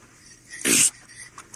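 A dog lets out one loud, harsh bark or yelp while facing an aggressive, charging grizzly bear on a walk in Alberta's Rocky Mountains. The short burst stands alone, followed by a few faint, brief sounds.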